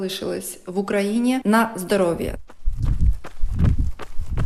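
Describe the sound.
A woman's footsteps at a slow, steady jog on an asphalted forest path, soft regular thuds that follow a stretch of talking.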